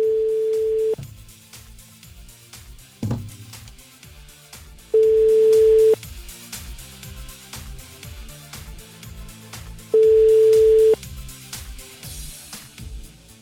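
Ringback tone of an outgoing telephone call left unanswered: three steady, evenly pitched beeps of about a second each, spaced roughly four seconds apart, with quieter sound running continuously underneath.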